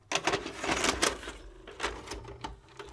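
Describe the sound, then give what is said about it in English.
A VHS tape is slid into a VCR, giving quiet mechanical clatter with a few sharp clicks and rattles. “Let's pop in the tape.”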